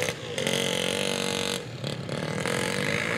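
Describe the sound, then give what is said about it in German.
A moped rides along the narrow crest of a new flood protection wall by the Java Sea. Its engine drones steadily throughout with a buzzing tone and some clattering. “Auf der schmalen Mauerkrone fährt ein Moped entlang.”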